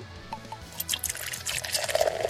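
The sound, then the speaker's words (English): O'Reilly's Rotator IPA by Widmer Brothers poured from a green bottle, a faint, continuous gurgle and trickle of liquid with small splashes and fizz that grows slightly busier toward the end. “O'Reilly's Rotator IPA is what it is. By Widmer Brothers. You cracked it. Now pour it.”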